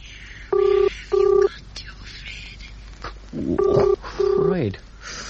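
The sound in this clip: Telephone keypad tones are dialed to connect a call. Four short, loud beeps arrive in two pairs separated by a pause, over a low background hiss.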